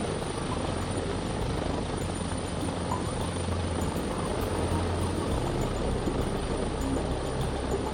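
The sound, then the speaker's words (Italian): A rescue helicopter with medical crew and Guardia di Finanza personnel on a training flight produces a steady, loud rotor and engine drone that holds evenly without a break. “Tecnici di elisoccorso, medici e militari della Guardia di Finanza si esercitano in volo con l'aiuto dei piloti, pronti a raggiungere il paziente direttamente in telecabina.”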